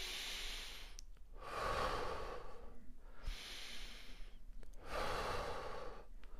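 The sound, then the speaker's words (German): A guide breathes slowly and audibly, with long airy inhales and exhales alternating in an even, unhurried rhythm. About four breath sounds are separated by brief pauses, and no one talks. “Lass dich nicht von meinem Atem irritieren, mach es in deinem Tempo, in deinem Rhythmus.”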